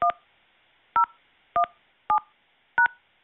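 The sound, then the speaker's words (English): Five short telephone keypad tones entering a voicemail password, each a brief sharp beep that quickly decays, spaced at slightly uneven intervals with silence between and no voices. “Please enter your password, then press pound.”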